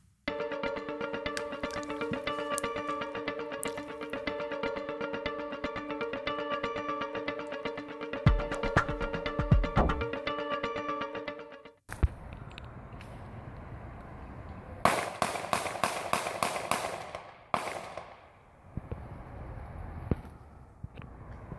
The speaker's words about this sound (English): Tanner, let's play it one more time, just through the shooting. Just so people can see it one more time, I want to sear it into your brain.